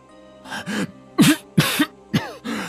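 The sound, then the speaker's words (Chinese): An elderly man coughs several times into a handkerchief held over his mouth, in short, harsh, throaty bursts separated by brief pauses. “拿着手帕捂着嘴咳了好几声”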